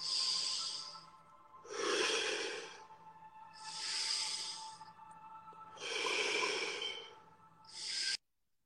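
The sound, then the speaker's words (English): Slow meditation breathing, in through the nose and out through the mouth: soft, airy nasal inhales alternate with fuller, breathier exhales in an even cycle of several breaths, without talk, cutting off abruptly at the end. “We're going to breathe in through the nose and out through the mouth. Inhale through the nose. Exhale through the mouth. And just continue with that cycle of breath.”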